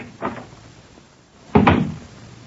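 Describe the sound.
A heavy door opens into a crime museum on the lower ground floor of a police headquarters, giving two dull thuds: a softer knock first, then a louder clunk with a brief rumbling tail.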